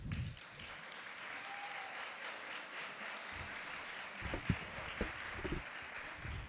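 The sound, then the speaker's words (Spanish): Audience applause at a charity concert in a church: soft, steady clapping from many hands that runs throughout, with a few sharper, louder claps standing out toward the end. “les damos un fuerte aplauso”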